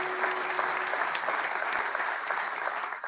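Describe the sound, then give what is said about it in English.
Audience applause from many hands clapping together, dense and steady at an even loudness for the full length, with a slight dip at the very end. “I think you ought to give Vicky a good hand clap.”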